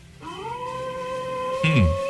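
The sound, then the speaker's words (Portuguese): A wolf's howl: one long, loud, clear call that rises at the start, then holds a steady tone for most of its length. A shorter, lower, falling note comes in near the end. “agora ele, o uivo do poderoso lobo.”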